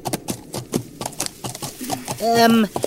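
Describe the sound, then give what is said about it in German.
Horse hooves clip-clop in a steady rhythm as a rider rides ahead along a country road, followed by a short, tonal whinny-like call near the end. “Reite vor und frage die Bäuerin dort, ob wir bald am Ziel sind, Kaspar.”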